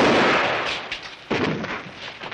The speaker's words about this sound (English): Shooting might bring the posse back.